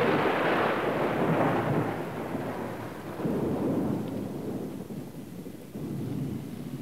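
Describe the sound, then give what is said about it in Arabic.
Deep thunder rumbling in three rolling swells, the first loudest and longest, each dying into a low growl before the next roll builds. “مع الله عند هزيم الرعود ولمع البروق ودفق المطر”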